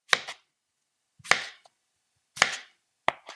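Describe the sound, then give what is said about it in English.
A knife cuts peeled potatoes into quarter-inch slices across the potato. There are four sharp, distinct cuts separated by short silences, each a crisp chop followed by a brief softer contact sound. “So once all the potatoes are peeled, we're going to slice them a quarter inch thick, kind of across the potato, the way like if the potato were a small loaf of bread, you'd go from one end to the other.”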